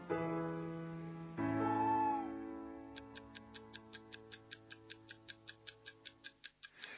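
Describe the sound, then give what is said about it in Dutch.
An alarm clock ticks inside a time bomb, a steady, even run of many sharp ticks that starts partway through over sustained tonal music and continues to the end. “Het tikt, net als ik al dacht. Nu eens kijken wat het is. Er zit, dunkt me, een wekker in. Een tik-tik-tik-tik-tikkende tijdbom.”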